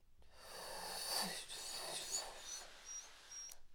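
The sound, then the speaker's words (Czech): A long, soft inhalation is taken while raising the leg during a breathing exercise, a faint airy hiss that swells and fades with no voice. “nejprve na dechu, teprve postupně přecházíme do hlasu. Při pohybu nohy nahoru se nadechujeme.”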